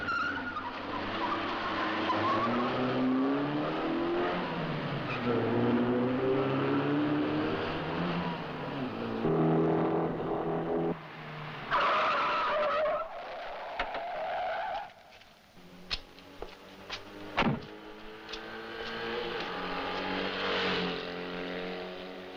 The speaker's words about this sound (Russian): Он поехал прямо по полю.